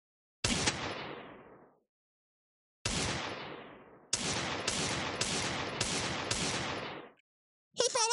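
Video game gunfire: a few single heavy shots with long, decaying tails, then a quicker burst of several shots in a row, and one more blast at the end. No voices are heard.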